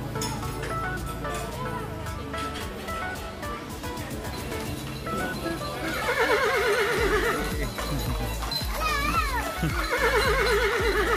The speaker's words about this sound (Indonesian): kita naik delman dulu.